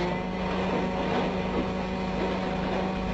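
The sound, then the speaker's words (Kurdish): A quiet boat motor runs steadily, producing a continuous low hum with a broad wash of noise that stays even in loudness throughout, with no breaks or voices. “دەنگی ماتۆڕەکەی زۆر بەرز نییە، لەبەر ئەوە زۆر گونجاوە بۆ ئەم کارە.”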